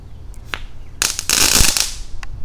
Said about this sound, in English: Okay, here we go. Glitter bomb. Yay, glitter bombs.